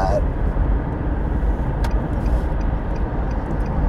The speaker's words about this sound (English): I'm just going to speed up here. This guy's driving really slow.